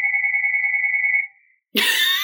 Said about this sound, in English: I'm going to let the phone continue to ring, because this actually fits really well.